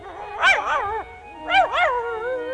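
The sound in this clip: White poodle barking in two quick bursts of high, wavering, whiny yips, fairly loud.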